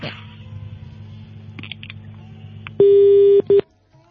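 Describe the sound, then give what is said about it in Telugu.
A telephone busy tone sounds after a call is cut off: a steady mid-pitched beep follows faint background sound, then a second, shorter beep before the line goes quiet. “Sairam, call cut చేస్తావా?”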